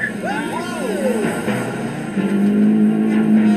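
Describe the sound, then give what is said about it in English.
A Renault car is driven fast around a test track, its engine note swooping up and down before settling into a strong, steady drone. “So, can Mrs. May beat that in the Renault?”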